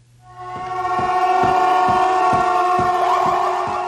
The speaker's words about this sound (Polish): W Łodzi na Piotrkowską przed siedzibę Urzędu Wojewódzkiego zjechały karetki i motoambulanse.